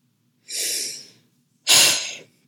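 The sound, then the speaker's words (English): A deep breath, heard alone as two breathy rushes of air separated by a short silence; the second is louder and sharper than the first. “takes a deep breath”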